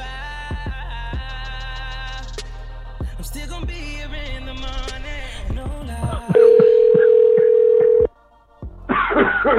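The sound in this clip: Telephone keypad dialing tones beep in a quick string of varied pitches to call a number back. A loud, steady electronic tone follows for under two seconds, then stops abruptly before a burst of noisy line sound.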